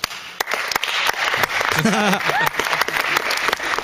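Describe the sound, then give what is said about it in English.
Polite, golf-style applause at an election count after a candidate's vote total is read out. A steady patter of hands is punctuated by a few sharp claps, and a voice speaks over it briefly midway. “Love the golf applause. Do you know what I mean? It's been going on for years, exactly like this.”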